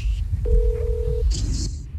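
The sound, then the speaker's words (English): Cell phone calling tone from a studio phone call: one short, steady mid-pitched beep under a dense, low, busy background, followed by a brief hiss. “Los teléfonos del estudio are not working, so I'm going to call the winner from my cell phone.”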